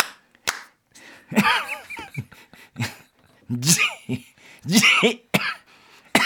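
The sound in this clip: A person coughs repeatedly in many harsh, uneven bursts, some sharp and short, others longer and strained with voiced, throaty tones between them.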